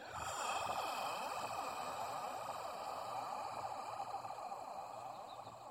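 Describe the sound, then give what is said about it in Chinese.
A long, steady breath out through the mouth during a pilates head-nodding exercise. It is soft and continuous, with a slight fade toward the end. “好，再次鼻子吸气。嘴巴吐气，”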